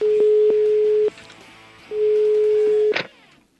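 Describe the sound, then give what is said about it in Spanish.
Telephone line tones while calling a number: two quick short beeps run into a longer steady tone, then a pause, then another long steady tone. It ends with a sharp click, and no one speaks. “Así que en este momento le vamos a marcar al Instituto Milford. Ojalá esté pendiente, ojalá conteste.”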